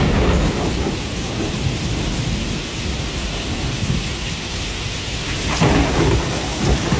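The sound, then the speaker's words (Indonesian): Heavy rain pours down in a steady, dense roar that holds its level throughout and swells slightly louder near the end, with no voices present. “Hari ini lebih berat dari biasanya. Hujan turun tanpa henti”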